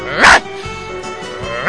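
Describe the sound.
A poodle gives two sharp, loud barks, one near the start and one at the end, with a quieter stretch between them.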